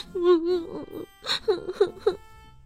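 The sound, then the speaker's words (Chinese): A voice acts out a child-like character crying in a children's tale: a wavering whimpering wail, then a few short, choked sobs, heard alone. “别哭，别哭，我来跟你玩。”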